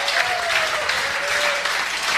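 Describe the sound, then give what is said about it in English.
An audience applauds a U.S. Open tennis finalist in a room of Florida Gators supporters, sustained, even clapping that holds at a steady level from start to finish. “How about a big round of applause for Ben Shelton, finalist of the U.S. Open?”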